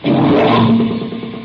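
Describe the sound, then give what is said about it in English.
An engine starts and runs, a motor said to have a knock, cranked right after a spoken contact call; a loud, rough, sustained drone with a low hum that holds steady, then eases slightly toward the end. “Motor seems to have a knock.”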